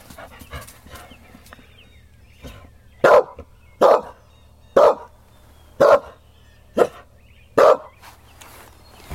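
A dog barks six times, loud and sharp, in a steady series after a stretch of softer scattered sounds and low background hum.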